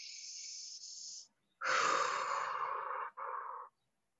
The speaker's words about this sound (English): wow, right now I just need to maybe take a deep breath.